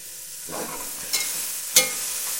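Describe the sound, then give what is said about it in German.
Bratwurst fries in a pan with a steady, even sizzle and hiss throughout, broken by two brief scraping clinks as it is stirred. “Und die Bratwurst brät schon vor sich hin.”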